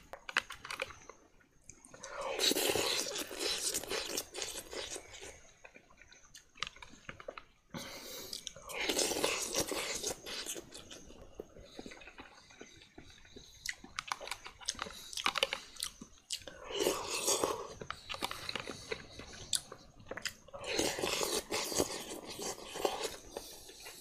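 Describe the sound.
Chewing and eating of meat, with moist, crunchy mastication sounds arriving in several dense bursts separated by short pauses, fairly loud and steady with no talking.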